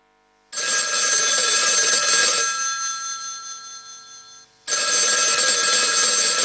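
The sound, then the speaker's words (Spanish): Telephone bells ring in two long, loud bursts; the first trails off in a lingering metallic decay before the second starts. “Los teléfonos suenan, los teléfonos llaman”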